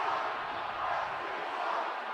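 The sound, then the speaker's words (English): Stadium crowd noise at Soldier Field during a Union versus Chicago soccer match, a faint, even murmur of many voices with no distinct cheers. “You can hear the crowd”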